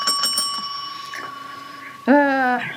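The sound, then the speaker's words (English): A small bell rings in a quick run of bright strikes. Its clear tone rings on and fades, and then a voice starts speaking over the end. “you get the bell”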